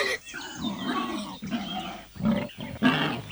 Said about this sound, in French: Quant à l'ours, il entre également en poussant de curieux grognements.